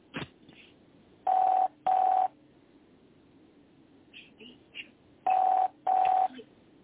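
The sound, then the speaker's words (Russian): Telephone keypad dialing: four clear electronic beeps in two pairs, each pair quick and even, separated by a gap with a few faint clicks and small noises between. “Звоню, я звоню, я уже на третий номер звоню.”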